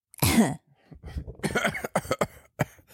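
Person coughing and clearing their throat: one loud, sharp cough, then a string of rougher, uneven throat-clearing rasps at moderate loudness.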